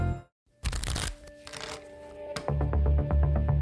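A deck of playing cards is shuffled: a crisp riffling burst, then a quieter stretch and a quick run of flicking clicks as the cards settle together.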